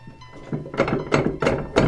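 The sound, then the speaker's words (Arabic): Knocking on a door: four solid knocks in an even, unhurried rhythm, each a dull, hollow thud, with no voices. “ها؟ من الطارق؟ أنا عمك يا عبد الله، افتح الباب.”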